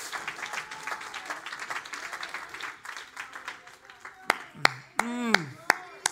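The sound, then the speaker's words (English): Hand clapping during a church sermon: quick, rapid clapping for several seconds, then a voice cries out between a few louder, separate claps. “I just got to clap a minute to calm down.”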